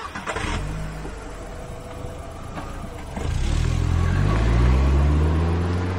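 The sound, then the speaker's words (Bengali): A car engine starts and drives away. A few brief knocks come first, then the engine catches with a low roar that grows louder and climbs in pitch as it pulls off. “গাড়ি চলে গেল।”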